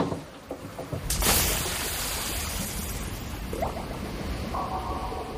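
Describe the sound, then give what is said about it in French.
Swimming pool water sounds, with a bright splash near the start followed by a steady rushing, hissing wash of moving water with faint higher tones. “Oui, ça c'est un bruit de piscine qu'on a emprunté à un documentaire sur le peintre Hockney.”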